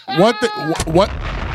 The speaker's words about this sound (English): Sound guy hit the bombs on you for that one.